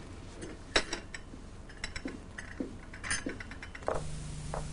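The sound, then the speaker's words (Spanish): Coffee cups clink as they are gathered up and carried to the kitchen, a few faint scattered knocks and light china clatters spread unevenly through a quiet stretch. “Chris recoge las tazas y las lleva a la cocina.”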